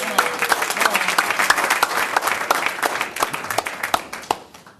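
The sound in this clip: Audience applause at an evening meeting after a staff-recognition speech: a crowd claps in a dense, crackling patter with individual sharp claps standing out, then gradually thins and fades toward the end.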